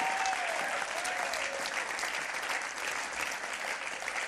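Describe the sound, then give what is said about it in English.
Sustained applause from an audience at a religious gathering: dense, even clapping that holds at a steady loudness throughout. “Can we give him a hand tonight? Louder than you did for me or anyone else. Can we lift up the King of Kings, the Lord of Lords?”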